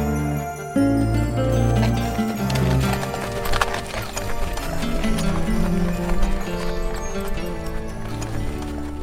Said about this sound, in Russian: Повозка приблизилась к пристани.